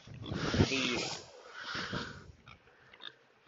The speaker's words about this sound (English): Oh, hello, Biggie. That's a little boar there, running around, so.